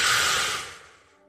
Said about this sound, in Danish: Så en dyb indånding.